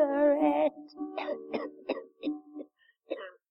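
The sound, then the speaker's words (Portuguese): A woman with a smoker's cough, asking for one last cigarette, gives several short, harsh coughs with pauses between them, after a strained voiced sound at the start. “A comediante inglesa Sheila Hancock, com tosse e tudo, pedindo seu último cigarro.”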